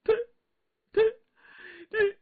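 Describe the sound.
A voice imitates a woman sobbing and weeping: three short, broken, wailing bursts, with a thin whimpering moan between the last two.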